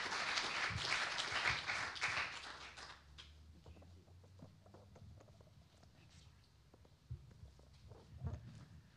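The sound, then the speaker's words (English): A church audience applauds a speaker's welcome with dense, loud clapping for about three seconds. The clapping then fades into quieter room noise with scattered knocks and movement. “So let's put our hands together and let's welcome Penelope as she comes and shares the word of God with us.”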